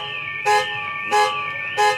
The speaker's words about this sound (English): Car alarms